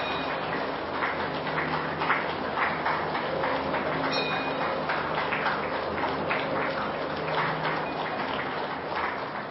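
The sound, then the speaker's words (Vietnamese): Dense, continuous applause from a Buddhist audience welcoming a monk lecturer before a dharma talk. The clapping stays at an even, moderate loudness throughout, without pauses. “Xin đạo tràng cho một tràng pháo tay để cung đón đại đức giảng sư Quang Lâm.”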